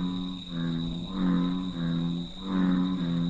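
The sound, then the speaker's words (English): A bullfrog calls from a pond on an Arizona refuge: deep, throaty droning calls swell up in a few long pulses, with a thin, steady, high insect-like whine running underneath throughout. “The bullfrog is believed to be the main reason for the decline of two Arizona natives, the Chiricahua leopard frog and the Mexican garter snake. Is that a great throaty sound? I just love it.”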